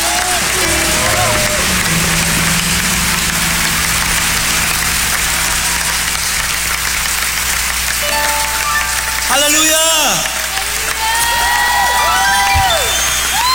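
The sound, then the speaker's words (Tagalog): A church audience applauds loudly for the Lord, with dense, continuous clapping throughout and voices calling out over it. “Sige nga, palakpakan natin ang malakas ang Panginoon.”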